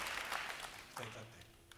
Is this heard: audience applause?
yes